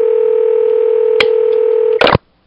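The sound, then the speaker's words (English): Dial tone on a telephone line as a random number is dialed: a steady, loud hum holds, broken by one short click, then a brief burst of noise before the line drops to silence. “It was a random number I just dialed.”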